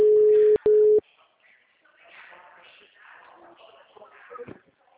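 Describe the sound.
A telephone ringback tone sounds on a call, with two steady, loud tones in the first second, then faint, muffled voices and rustling.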